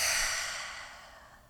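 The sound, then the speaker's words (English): A deep breath exhaled through the mouth during a guided meditation: one long, soft, airy exhale that gradually fades away, with no talking. “take one deep breath in through the nose. Hold. And exhale through the mouth.”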